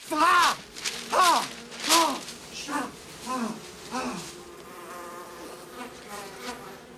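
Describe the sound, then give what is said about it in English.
Buzzing of a swarm of bees swirling around a man at a breakfast table by a window. Several swelling buzzes come in waves, loudest at first, then fading into a softer, steady hum. “A bee lands on the breakfast table. A swarm of bees swirl around Herman.”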